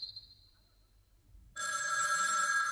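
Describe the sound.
A telephone bell rings loud and bright, starting about halfway through after a near-silent stretch with a faint high tone, then sounding as one continuous ring to the end.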